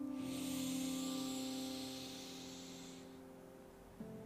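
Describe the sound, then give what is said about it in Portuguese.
A deep breath drawn in to fill the belly, heard as a soft airy hiss that swells and fades over about three seconds above steady sustained tones. “bem profundo agora, puxando o ar, enchendo a barriga.”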